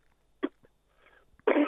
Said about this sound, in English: I just coughed.